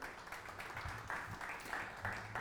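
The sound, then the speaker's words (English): A church audience claps in a steady rhythmic beat, faint and even, with the claps pulsing in regular bursts. “It's a clapping morning. Come on, somebody.”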